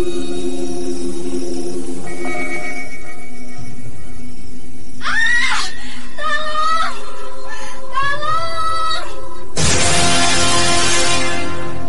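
A person screams for help at night, several wavering, strained cries rising and falling in pitch over a low steady drone, followed by a harsh, noisy outburst near the end.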